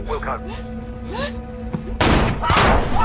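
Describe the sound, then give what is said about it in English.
Bullets hitting armor plating: a dense, loud barrage of sharp impacts and heavy thuds starts partway through and carries on to the end, after quieter chirping tonal sounds. “It's okay, ma'am. It's okay. The bullets can't get through the armor plating.”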